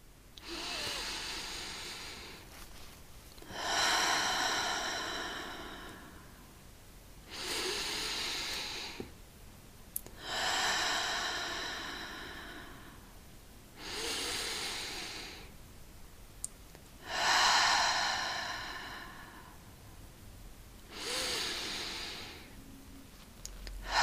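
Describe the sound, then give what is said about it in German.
Slow, deep breaths in and out, taken as a calming ritual with hands resting on the heart: long airy inhales and exhales alternate in a steady, unhurried rhythm, heard alone with no talking. “Ich lege meine Hände auf mein Herz und atme viermal tief ein und aus.”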